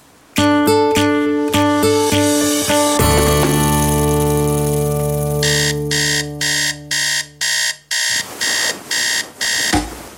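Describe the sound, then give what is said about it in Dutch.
An alarm clock ringing loudly: pulsed electronic buzzing gives way to a sustained tone, then a run of short, rapid beeps. “Wat is dat? Dat is de wekker”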